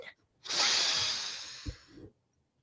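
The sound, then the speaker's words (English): A deep breath in and blown out comes through as one long, loud, airy rush of breath lasting about a second and a half. It fades slightly before stopping, and a low thump falls near its end. “We take a deep breath in, we blow out all those frustrations”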